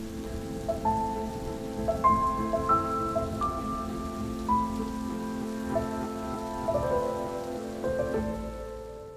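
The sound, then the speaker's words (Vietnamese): Rain falls in a shower as a soft, steady hiss of drops that continues throughout, with gentle melodic notes playing over it. “Hai người còn chưa bước ra khỏi cửa thì cơn mưa đã bất ngờ ập tới.”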